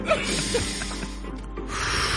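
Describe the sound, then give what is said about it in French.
A person breathes hard through a congested, snot-filled nose, a steady, rushing, snorting airflow that continues throughout at moderate loudness with no talk. “On respire fort par le nez. Il aurait fallu se moucher avant.”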